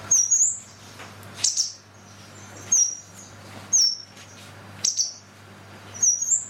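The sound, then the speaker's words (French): Blue tit, a small insectivorous songbird, gives six short, high-pitched chirps, spaced about a second apart, each a quick bright burst above a faint low hum. “La mésange bleue. La mésange bleue est un petit passereau insectivore au plumage parfois rehaussé de teintes vives”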